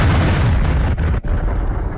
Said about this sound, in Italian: Ecco il suono delle bombe russe sul teatro di Mariupol, pieno di famiglie.